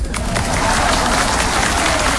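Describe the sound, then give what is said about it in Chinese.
Audience applause fills the whole stretch as a dense, steady wash of many hands clapping, loud and unbroken, with no talk over it. “我说您听见什么了就鼓掌啊？”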